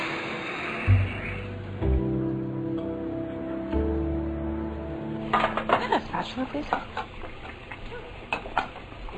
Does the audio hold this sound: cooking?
yes